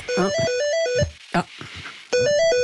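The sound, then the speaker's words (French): A telephone rings with a melodic electronic ringtone, a bright phrase of stepped notes that stops briefly with some shorter sounds in the gap, then starts up again. “on a un coup de fil, on dirait”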